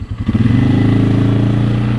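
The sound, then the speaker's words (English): ATV engines drone as wildlife biologists ride into the woods to check a hog trap. The loud motor builds over the first half second, then holds a steady, even roar with a throbbing low tone. No one talks. “Biologists from the USDA ride into the woods on ATVs to check their 10-foot trap.”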